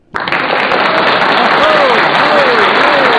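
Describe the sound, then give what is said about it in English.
Applause from a studio audience bursts in abruptly and holds as a loud, steady wash of clapping to the end. “Dude, that's loud. I know it is, right? Our studio audience loves you guys. They're so excited.”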